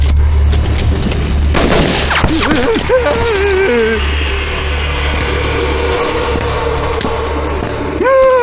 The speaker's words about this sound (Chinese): 你怎么开枪打我呀？我差点见阎王了。